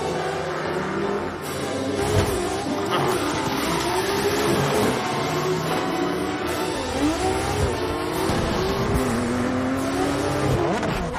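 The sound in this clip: A racing car engine in a racing video game roars continuously and loudly, its pitch repeatedly climbing and dropping as it revs and shifts, with no break in the sound.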